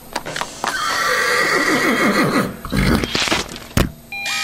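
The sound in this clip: A horse gives a loud, drawn-out whinny that wavers in pitch for a couple of seconds, followed by a few sharp thuds.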